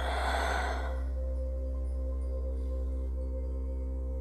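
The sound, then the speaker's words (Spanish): A deep exhale through the mouth during a guided breathing exercise: one breathy rush lasting about a second, then fading, over a steady low humming musical drone that continues alone. “Comienza tomando una inhalación muy profunda por tu nariz para llenar tus pulmones hasta el fondo. Y por tu boca exhalas y sueltas todo, todo el aire.”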